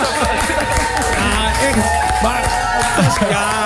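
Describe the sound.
Applause and crowd noise greeting a caller, a steady wash of clapping kept under voices that talk throughout.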